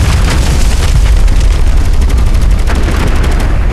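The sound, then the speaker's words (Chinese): Machine-gun strafing fire rattles in a rapid, unbroken stream of loud shots with a deep booming undertone that holds steady for the whole stretch, with no voices. “好了，我们被盯上了，这是机枪扫射，我一定被盯上了”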